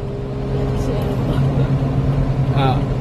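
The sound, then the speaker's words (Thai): Car overtaking on the road, heard as steady engine and road rumble from inside a moving vehicle, with a voice briefly audible over the noise. “มีรถแซงไปคันนะครับ”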